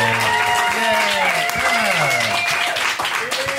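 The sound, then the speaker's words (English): A live audience applauds with steady, dense clapping, mixed with loud cheering and shouting voices throughout. “You guys give it up for Nora and Matt on this issue.”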